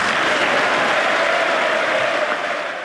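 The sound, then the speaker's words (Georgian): Members of Congress give an ovation after Trump's speech, a sustained, dense roar of many hands clapping at an even level that eases off slightly at the very end. “გამოაცხადა შეერთებული შტატების პრეზიდენტმა, რომლის გამოსვლასაც, როგორც მოისმინეთ, კონგრესში ოვაციებით შეხვდნენ.”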